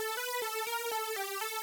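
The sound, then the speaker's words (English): Synth hook from a factory Logic channel strip preset, a variation of a chorus part: a bright, buzzy lead with rich harmonics steps through a quick, even run of pitch changes. It holds steady and loud throughout, with no voices. “The first one is called Euro Hook. Straight out of the factory Logic channel strip setups, it's a variation of the original chorus part I had, and sounds like this.”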